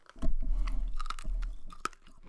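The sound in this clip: ASMR chewing and biting, crunchy and close, with several uneven crunches and smacks spread across a short, moderately quiet stretch.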